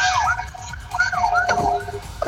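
Wailing siren of an arriving fire engine outside a supermarket. Loud rising and falling sweeps repeat over steady street noise.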